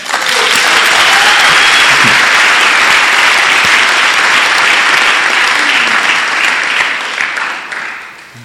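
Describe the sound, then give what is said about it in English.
A church audience clapping loudly and continuously, a dense, full wash of many hands that holds steady before gradually fading out. “Is that the way you clap in this church?”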